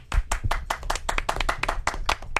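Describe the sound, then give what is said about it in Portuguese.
Hand clapping in a round of applause: many sharp, crisp claps in a quick, slightly uneven rhythm, fairly loud and heard alone without any talk. “uma salva de palmas”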